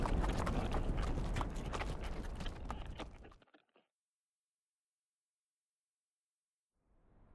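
Horses' hooves clip-clop steadily as riders travel on through the desert, a dense run of many hoofbeats lasting about three and a half seconds before stopping abruptly. Silence follows, and a faint sound returns only at the very end.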